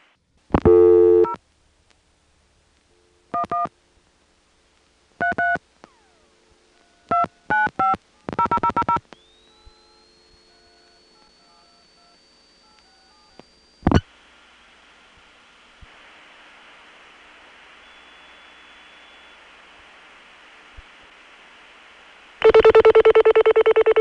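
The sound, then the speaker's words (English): Touch-tone dialing on a telephone line, with crosstalk from other customers dialing: a few short bursts of DTMF digits, then a long steady high tone that cuts off abruptly, a stretch of faint hiss, and a loud tone at the end. “You could actually hear other customers dialing. After I dial the last digit, you can hear them. And then when we cut through to the long-distance network, the crosstalk disappears.”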